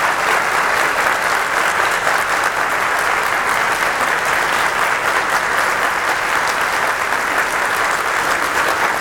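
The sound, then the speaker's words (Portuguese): Sustained audience applause at the close of a talk: many hands clap in a dense, even wash that holds steady and loud for the whole stretch, with no single voice standing out. “Palmas para Chico, né? Não para mim, palmas para Chico.”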